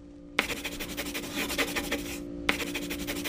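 A pencil scratches across paper while simple pictures are drawn on a booklet's pages: two stretches of rapid back-and-forth strokes, separated by a brief pause, each starting with a small tap.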